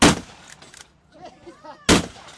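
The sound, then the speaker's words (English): Two loud, booming blasts from a 10-gauge shotgun at a Wild West re-enactment shoot on a Sunday afternoon, each a sharp crack with a short rumbling tail, separated by almost two seconds of quieter noise. “Good, you gotta love that 10-gauge.”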